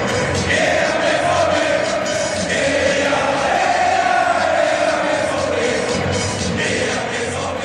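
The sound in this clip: BVB football supporters chanting "Heja BVB": a loud, massed crowd of voices singing in unison, the chant rising and falling in a sustained sing-song line over a constant roar of the crowd.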